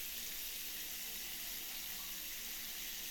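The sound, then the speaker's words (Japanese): Shower running hot water, a steady, even hiss of spray with no breaks or splashes standing out, fairly faint and heard alone. “シャワー、気持ちいいですか？お湯って気持ちいいですよ。”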